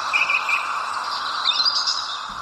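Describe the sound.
Birds chirping in short bursts of high, thin tweets near the start and again midway, over a steady bed of outdoor noise.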